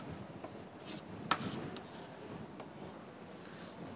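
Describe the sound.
Faint scratching strokes of someone drawing a transformer secondary circuit diagram, a few short, irregular rubbing marks with one sharper tap, quiet and without talk.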